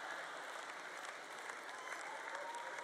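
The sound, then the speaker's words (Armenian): Applause from a church audience: steady, dense clapping that runs evenly through the whole stretch at a faint, low level, with no voices standing out. “Դուք ծափահարում եք, որովհետև գիտեք, թե ինչի մասին եմ խոսում։”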